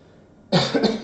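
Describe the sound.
A short burst of coughing and throat clearing breaks out after a quiet moment, rough and loud, with a couple of harsher peaks before it fades.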